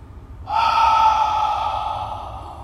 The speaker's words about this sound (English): One more. Exhale, mouth.